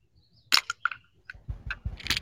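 A White Claw hard seltzer can being opened, a few sharp metallic clicks and a crisp crack, then softer rustling and low thuds.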